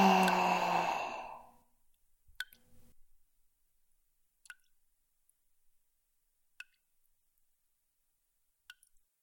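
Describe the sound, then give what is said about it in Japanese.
A deep breath released as a long, soft sigh lasting under two seconds, followed by near silence broken by four faint, sharp clicks spaced evenly apart. “もう一度大きく息を吸って吐いて、”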